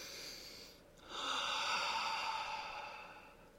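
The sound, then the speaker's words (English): A slow deep breath taken during a guided relaxation exercise: an airy rush of breath swells after about a second and holds steadily, easing off slightly toward the end, quiet and with no talking. “Just take a deep breath. Let's do it.”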